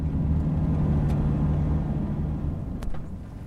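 Low engine and road rumble from a car pulling over by the roadside in Kirua, Kenya. The steady, loud drone eases slightly toward the end.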